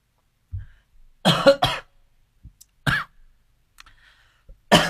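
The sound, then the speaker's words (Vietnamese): A person coughing in several short, harsh bursts, some doubled, along with what sounds like a throat clear, each separated by near silence, with no speech in between. “xin lỗi anh chị. Hôm nay tự nhiên nó ho ho.”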